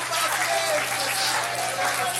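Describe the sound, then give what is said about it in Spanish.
Congregation applauding at a Spanish-language church service in praise of Jesus: steady, continuous clapping from many hands at a moderate level, with a low hum underneath. “Dale un aplauso de gloria a Jesús. Dale un aplauso de victoria a Dios.”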